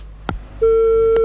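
Busy tone from a telephone after a dropped call: a sharp click, then a loud, steady beep tone that holds unbroken to the end, with another faint click near the close.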